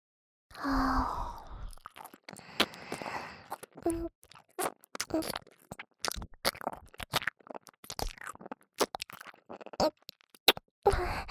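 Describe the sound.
Wet mouth sounds and swallowing in an ASMR roleplay: many soft clicks, smacks and gulps in an irregular rhythm, with a sigh-like breath at the start.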